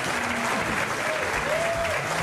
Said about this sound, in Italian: applauso, grazie mille.